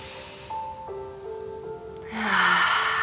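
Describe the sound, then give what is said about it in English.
During a guided meditation, a deep inhale comes as a soft, breathy rush of air in the final second, over gentle, sustained musical tones. “So together we all inhale,”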